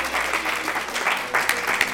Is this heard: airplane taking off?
no